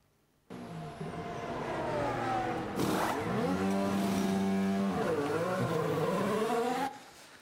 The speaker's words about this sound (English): Tire change in 2 seconds.